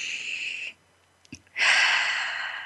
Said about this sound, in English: So let's take one more breath.